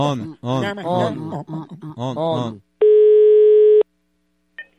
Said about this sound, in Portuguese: eu vou ligar e fazer mais uma ligação na maior audiência do Brasil. Escuta, tá chamando.